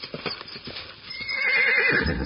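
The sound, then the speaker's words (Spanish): Horse hooves galloping at speed on a farm estate: rapid, continuous hoofbeats with a loud whinny rising over them midway through. “escuchen, ¿quién será que viene galopando a tanta velocidad?”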